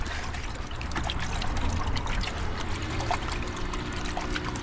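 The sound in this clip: Water being touched and disturbed by hand, a continuous trickling and splashing with a dense, bubbly texture at fairly even loudness throughout.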